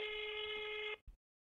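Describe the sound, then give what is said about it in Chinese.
A single telephone voicemail beep sounds as one steady mid-pitched electronic tone lasting about a second, followed by a brief click and then silence. “您的电话将转接到语音信箱，嘟声后开始计费。如不留言，请挂断。快速留言，嘟声后请按井字键。”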